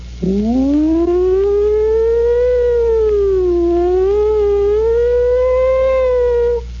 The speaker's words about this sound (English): sound of a distant approaching and receding siren. Squad car, the police, the fire department, who knows what, an ambulance.